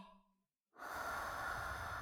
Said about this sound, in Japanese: もう一度だけ吸って、ゆっくり吐いて、